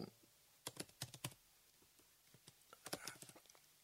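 Typing on a computer keyboard: faint, quick clusters of clicking keystrokes in two bursts, with a short pause between them.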